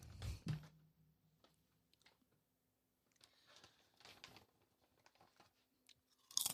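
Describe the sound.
Crunchy chewing of a dill pickle: a loud bite near the start, a lull, then bursts of wet crunching and a final sharp crunch at the end.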